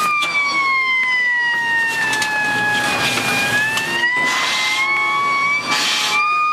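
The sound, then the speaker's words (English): A gas alert siren wails near Baghdad in a military setting, a loud, continuous tone that dips slightly in pitch midway and climbs back, sounding steadily throughout. “The closer we get to Baghdad, the more frequent the gas alerts become.”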